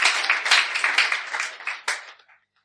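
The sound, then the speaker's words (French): An audience applauds in acclaim of a woman: dense, bright clapping that holds for about two seconds, swells briefly once more, then fades out quickly to silence. “Est-ce qu'on peut acclamer pour cette femme-là?”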